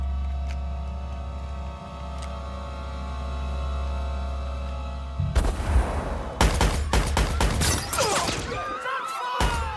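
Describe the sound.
Pistol gunfire from an automatic handgun in an audio drama shootout: a steady low droning tone gives way to a rapid series of loud, sharp cracking shots.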